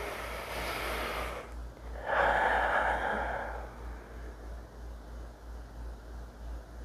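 A person takes a deep breath while pausing to reflect: a long, airy inhale, a short gap, then a fuller, louder breathy exhale, followed by quiet with a low steady hum.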